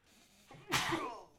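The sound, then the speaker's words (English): A single human sneeze, quiet overall: a short intake of breath builds into one sharp, hissing burst that slowly trails away. “as I have to sneeze.”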